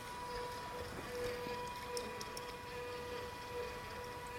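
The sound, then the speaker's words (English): A water pump runs at doubled speed, giving a steady, even mechanical hum with a thin constant whine and a faint ticking texture, with no voices over it. “So I've doubled the speed of the pump.”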